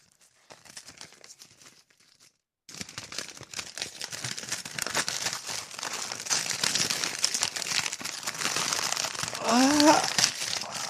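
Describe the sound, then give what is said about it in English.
Paper crinkles and tears as a mailed letter is opened, with many dense rustling and ripping noises that grow busier and louder after a short quiet start. A brief voice sounds near the end. “Let's see what's in this letter here.”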